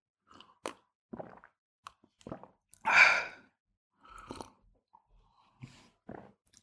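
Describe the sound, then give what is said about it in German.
Sips of green tea: several short, quiet slurps and swallows spaced apart, with one louder breathy exhale in the middle, and no talking. “Ich trinke da jetzt übrigens einen grünen Tee.”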